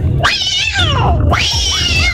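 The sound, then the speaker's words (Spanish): A cat yowls twice in a loud, strained caterwaul used as a squashed-cat sound effect. The first cry is long and falls in pitch, and the second rises sharply before trailing off. “Madre bendita, y ese gato aplastado. ¡Qué bestia!”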